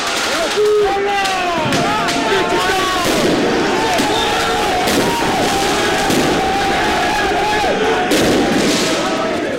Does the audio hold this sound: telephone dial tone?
no